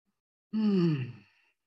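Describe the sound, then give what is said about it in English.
A single deep breath let out as a voiced sigh during a guided meditation: a short, breathy exhale whose tone falls as it fades over about a second, alone against silence. “Take a big, deep breath.”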